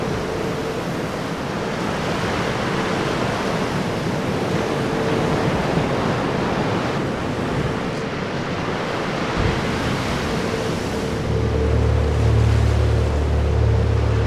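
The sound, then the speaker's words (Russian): Waves crash over people and against rocks in a film scene. The surf makes a loud, continuous roar that stays steady throughout. “Все волны накрывают людей и ударяются о скалы.”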